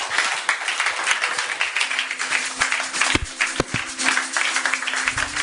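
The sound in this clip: An audience applauding during a church service, a dense and steady wash of many hands clapping that keeps going without a break for several seconds, with no voices over it.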